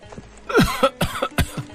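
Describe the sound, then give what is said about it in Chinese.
Several rough, throaty coughs from a soldier lying on the dusty ground after a fall, coming in a quick irregular series of loud bursts. “地上的尸体咳嗽几声喊道”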